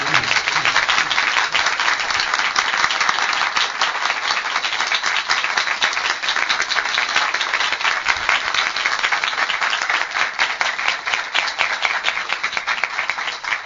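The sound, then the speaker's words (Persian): Audience applause at a religious gathering (majlis), dense, steady clapping from many hands that stays loud and even for the whole stretch. “هر چی تو توان داری تستت بکنی یک کف خوشگل و مشتی بزن.”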